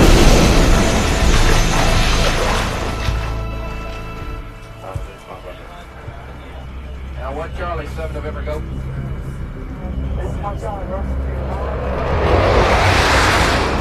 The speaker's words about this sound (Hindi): जोरदार धमाका, बहुत बड़ा धमाका, ये क्या हो गया है?